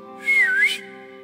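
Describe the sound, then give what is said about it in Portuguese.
A single short mouth whistle imitating a signal whistle, bright and about half a second long, dipping and then rising in pitch over a steady low hum. “Abraão só fez um apito. Fez assim, ó.”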